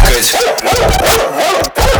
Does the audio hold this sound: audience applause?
no